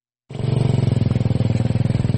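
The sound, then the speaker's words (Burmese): A motorcycle engine starts abruptly and runs on as people flee a flood on their motorcycles. It holds a loud, steady, rapid throbbing beat with no change in pace. “ဆိုင်ကယ်ရှိတဲ့သူတွေကဆိုင်ကယ်တွေထုတ်ပြီးဆိုင်ကယ်နဲ့ပြေးကြပါတယ်။”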